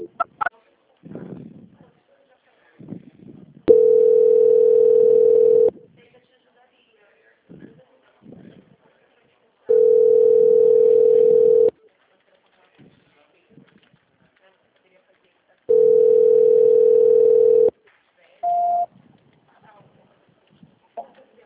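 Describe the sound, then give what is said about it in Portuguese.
Telephone tone heard while a call is being transferred: three long, steady mid-pitched tone bursts of about two seconds each, separated by pauses, with a short higher beep near the end and brief bits of voice between the tones. “eu vou transferir a ligação para o controle de qualidade que vai dar prosseguimento à contratação”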